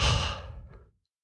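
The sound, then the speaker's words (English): A single soft breath exhaled like a sigh, starting fullest at once and then trailing off smoothly into silence within about a second. “Here comes a breath. Listen to this.”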